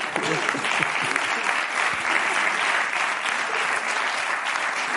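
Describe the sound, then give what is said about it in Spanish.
Audience applause, with many hands clapping in a dense, steady wash that stays fairly loud and unbroken from start to finish. “Un aplauso para”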